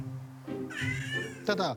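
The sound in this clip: A cat yowling during an attack lets out a drawn-out, wavering wail, then a second, harsher yowl near the end, loud and strained.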